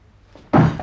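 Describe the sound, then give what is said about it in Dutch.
A book being thrown lands with a single heavy thunk, a short, loud, dull thud that fades quickly. “Waarom begin je nou ineens met boeken te smijten?”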